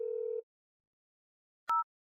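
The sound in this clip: Ringback tone of a phone call that goes unanswered: a steady low hum cuts off after under half a second, then after silence a short, higher two-tone beep sounds, with no voices.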